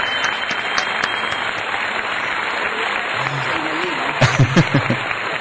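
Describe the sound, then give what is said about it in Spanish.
An applause sound effect of an ovation: dense, steady clapping throughout, with voices shouting and cheering over it near the end. “Yo exijo uno de esos pisadorcitos que tenés con aplauso. Ah, una ovación, a ver.”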